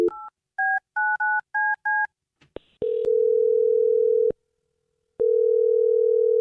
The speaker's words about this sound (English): I'm going to dial this dude right now and see why he's not calling you back, okay?